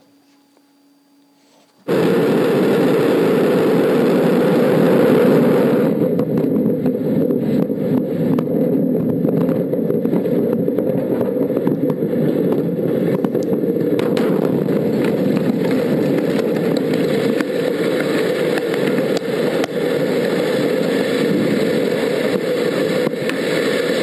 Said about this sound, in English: That's a rocket that was attempting to launch. That was a vehicle attempting to get from A to B,